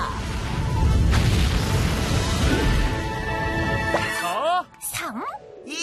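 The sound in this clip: A rocket launch bursts into a loud, broad roar that rumbles for about four seconds, then gives way to sweeping whistling tones.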